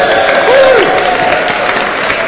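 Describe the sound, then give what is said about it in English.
Round of applause from an audience at a live show, greeting a man who hands round the microphone. The clapping is dense and even for the whole stretch, with a brief voice rising above it early on. “Give Scott a round of applause.”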